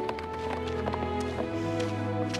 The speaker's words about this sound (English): As the colt trots through a narrow pass, Neera runs after him, pumping her arms. As she begins to catch up, the colt breaks into a gallop up a winding path.